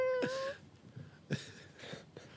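A person imitates a shy kitten's meow with one brief, high tonal squeak at the start, followed by faint breathy sounds and a few soft low thumps.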